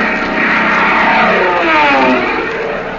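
Propeller airplane engine drone, a radio comedy sound effect of a P-38 fighter flying away: a loud, steady buzzing roar with a slightly wavering tone that eases off a little at the end.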